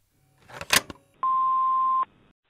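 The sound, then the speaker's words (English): A voicemail beep: a single steady, pure mid-pitched tone lasting under a second, preceded by a brief burst of rustling handling noise. “I'm leaving a voicemail because I just saw your TikTok video”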